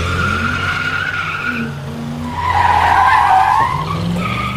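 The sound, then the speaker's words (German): Car tires squeal and spin under hard acceleration at a traffic light, a sustained, wavering high-pitched screech over a rough engine roar that continues unbroken and swells louder midway. “Ihr könnt also aufhören, bei der Ampel so viel Gas zu geben, dass die Reifen durchdrehen.”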